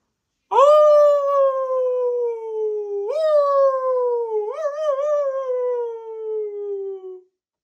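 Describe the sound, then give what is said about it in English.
A voice imitating a wolf howling in one long, sustained, tonal howl. It slides slowly downward, jumps up in pitch twice partway through, then wavers and fades out alone. “let's do a wolf.”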